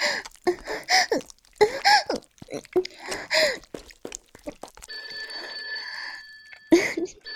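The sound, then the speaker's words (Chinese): A telephone rings with a steady, high electronic tone that holds for about two seconds after a stretch of people talking and breathing sharply. “别吓着了，别紧张，我来接电话。”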